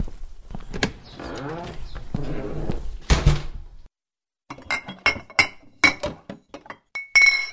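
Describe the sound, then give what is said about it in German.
Glass bottles clink and knock as someone rummages for a bottle of schnapps. Rustling and shuffling come first, then a brief pause, then a run of sharp, bright clinks of varying loudness. “Ich werde mal sehen, ob ich noch ein Schlückchen Schnaps bei mir habe.”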